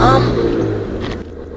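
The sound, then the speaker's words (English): A car being driven gives off a steady low rumble, with a strong engine tone that hums near the start and then eases slightly as the drive continues. “Obviously, we're driving.”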